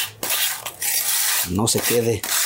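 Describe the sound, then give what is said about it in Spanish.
Rasping scrape of a piece of tinplate sheet pushed across a freshly kneaded wet mixture to keep it from sticking. Loud, gritty strokes run almost continuously, broken by a couple of short pauses. “Con un pedazo de lámina de hoja de lata, le raspamos bien”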